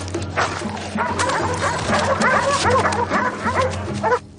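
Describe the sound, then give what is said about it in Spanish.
Ferocious dogs bark, snarl and yip as they lunge at people and bite their legs in a violent attack, a loud, dense, continuous frenzy of overlapping barks and whimpers that cuts off abruptly just before the end. “Los perros se abalanzan contra la gente.”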